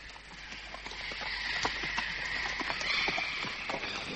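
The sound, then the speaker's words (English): Llama hooves clip-clop as the animal climbs an arduous mountain trail toward Machu Picchu, an audio drama effect with a rider strapped over its back. Many soft, quick hoofbeats patter in an even rhythm at moderate level. “Parry had a kind of apoplexy, and I was obliged to strap him over his llama for the arduous climb.”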